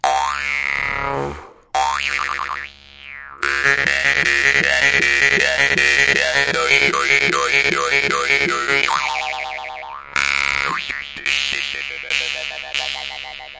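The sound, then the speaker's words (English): A Russian or Siberian vargan, a handmade jaw harp of the kind played by shamans, twangs with a rich, buzzing drone. Its vowel-like wah shifts pulse rhythmically through a long sustained passage, framed by shorter bursts with brief gaps. “I have this one from it's either Russia or Siberia. I can't remember which one it's where it's from, but it's called a Vargin. This is one of the more expensive ones I have, but it's played by shamans, and it's a really rich one.”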